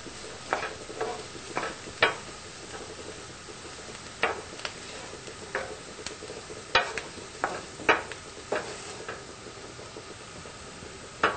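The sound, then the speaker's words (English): Onions fry in a pan, browning and softening on the heat. A soft, steady sizzle runs throughout, broken by many irregular scrapes and knocks of stirring. “We want those onions to get nice and browned and soft. So we're gonna let them sit on the heat.”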